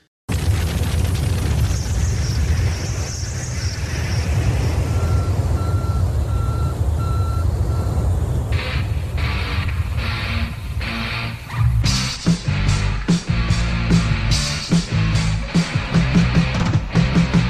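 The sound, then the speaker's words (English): A rocket launching and landing, heard as a long, loud, low roaring rumble with a run of short steady beeps partway through, then an abrupt switch to a punchy, choppy electric guitar riff for the last few seconds. “The rocket ship launching, the guy landing, and that guitar. Yeah. It's like a 14-second riff.”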